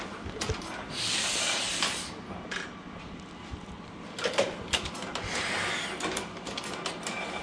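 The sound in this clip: A printing machine feeding paper from the back with its type locked up, giving a steady hissing mechanical whir broken by many sharp clicks and clatters that come louder in bursts.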